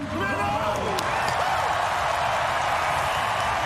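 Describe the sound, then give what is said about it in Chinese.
A stadium crowd at an athletics race erupts in thunderous applause and cheering, a dense, steady roar that holds at full strength throughout. “现场也是爆发出了雷鸣般的掌声和欢呼声。”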